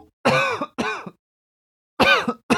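Throat clearing from someone with a peanut from trail mix lodged in the throat: several short, rasping voiced bursts, with two close together, a pause, then a few more.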